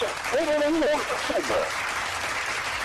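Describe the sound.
An audience applauds with a steady wash of clapping throughout. A voice sounds briefly early on, and the clapping stays moderately loud to the end.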